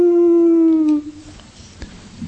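A single drawn-out Halloween-night howl holds a loud, steady, harmonic tone for about a second, dips slightly in pitch, then breaks off into quiet.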